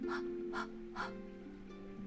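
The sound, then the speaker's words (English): Breath of Fire breathing: three short, forceful breaths pushed out through the mouth with a breathy 'ha' quality, evenly spaced in the first second, over a sustained low tonal drone that continues afterward. “Breath of Fire is short, forceful breaths out your mouth with the ha sound, like so.”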